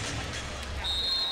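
Volleyball bounced on the court by a player before a serve at a Hokies match: a few soft, dull bounces over steady arena noise.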